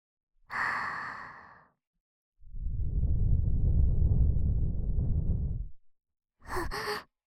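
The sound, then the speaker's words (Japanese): Breath gently blown into the listener's ear: a breathy sigh, then a long, steady, low whooshing blow lasting several seconds, and a short airy puff at the end. No words are spoken. “耳ふうふうしますね。”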